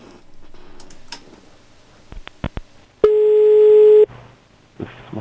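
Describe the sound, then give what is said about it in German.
Ringing tone of an outgoing phone call to a political party office: a few sharp clicks on the line, then one steady mid-pitched tone about a second long, followed by faint line noise. “habe ich damals mal bei der CDU angerufen und habe einfach mal nachgefragt.”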